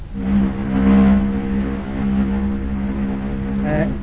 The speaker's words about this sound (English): Start her up, chief. Give her a crank.